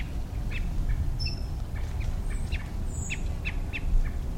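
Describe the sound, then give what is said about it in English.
Quail calling near a buckeye where chicks are moving, many short, high chirps in an irregular sequence over a steady low background hiss. “I think that's a quail also.”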